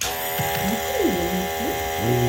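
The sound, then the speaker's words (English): A nebulizer machine vaporizing medicine through a mask for a child's severe cough hums steadily with a stack of even harmonic tones, while a faint voice and gliding vocal sounds rise and fall over it. “a mask attached to a machine that vaporizes the drugs so that they can be released directly into her lungs”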